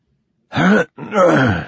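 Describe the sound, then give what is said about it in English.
A voice imitates a man clearing his throat in two gruff, rasping bursts. The second burst is longer than the first, and both stand alone against silence. “He cleared his throat and tried again.”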